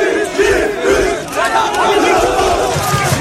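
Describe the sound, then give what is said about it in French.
Jubilant Trabzonspor football fans cheer and chant to welcome a 34-year-old player. A loud, dense mass of voices swells in waves throughout. “que ce soit en correspondance à Istanbul ou à Trabzon, ces mêmes scènes de liesse pour accueillir le joueur de 34 ans.”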